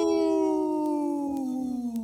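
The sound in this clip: A wolf-like howl, given by voices imitating it, as a long smooth tone that slides gradually downward in pitch and holds steady and fairly loud throughout, with a few faint clicks behind it.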